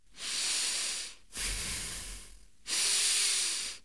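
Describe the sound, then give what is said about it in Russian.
Breathing through the nose: three long, airy hissing breaths of about a second each, separated by short pauses. They are steady and fairly loud, with no talking. “Интересно, я ведь носом дышу.”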